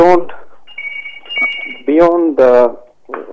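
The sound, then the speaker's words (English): A telephone rings in the background during a conversation, one steady electronic tone lasting about a second beneath louder talking voices. “thanks for coping with the phone that's going off in the background there”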